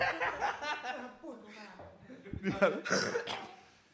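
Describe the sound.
Coughing from someone who says they are getting ill: a few harsh bursts mixed with vocal sounds and brief chuckling.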